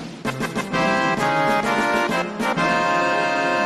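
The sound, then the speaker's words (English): The Final Fantasy VII video game's victory fanfare rings out as loud, bright synthesized music: a quick run of staccato opening notes, then sustained, rich chords with a short dip before the tune carries on, with no voices. “That's the so-called victory fanfare from the original Final Fantasy game on the NES.”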